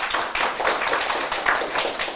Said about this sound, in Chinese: 好，我们再次掌声谢谢师姐弟兄，